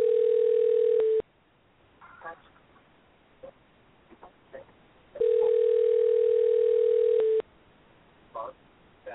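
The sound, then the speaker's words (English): A telephone call rings out to a person who just dropped off a call-in line. Two long, steady tones sound at an even mid pitch, separated by a pause of about four seconds, with faint voices and small noises in the gaps. “He just dropped. So I'm trying to call him in.”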